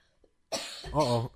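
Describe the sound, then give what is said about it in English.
A single throaty human cough breaks a near-silence, a sharp burst that trails into a short, voiced, rasping tail before stopping. “Uh-oh. I'll cough too.”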